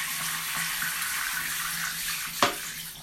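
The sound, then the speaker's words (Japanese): Water runs steadily to rinse or flush away urine, a constant soft hiss with a brief knock near the end. “ちょっと流しますね、おしっこ出ないように。”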